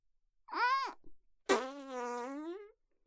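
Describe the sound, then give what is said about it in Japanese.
A fart, two buzzy, tonal blasts: a short one first, then after a brief pause a longer, steadier raspy one that trails off. “うんち我慢してたらおなら出ちゃうの。いっぱい。くっちゃいの。くっさいおならいっぱい出ちゃうんだよ。”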